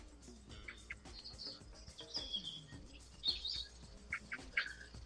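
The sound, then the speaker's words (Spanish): Many small birds sing outdoors in the morning, a faint, busy mix of high chirps and short trills that overlap at irregular moments over a quiet, steady background. “Se nota que están los pajaritos. Oyendo todos los pájaros, todos. Es increíble la cantidad de ellos que hay.”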